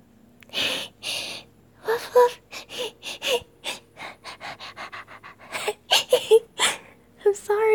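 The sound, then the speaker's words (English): Breathy panting from a person playfully acting like an excited, happy puppy, with many quick, rhythmic puffs of breath and occasional soft whimper-like tones, steady throughout. “I get all excited and happy, and then I can't help but kind of pant a little.”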